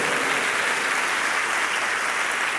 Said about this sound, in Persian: بردم از این گروه نازنین ناشنوایان عزیز که واقعا حال بود باحال بود و یه دست خوب براشون بزنید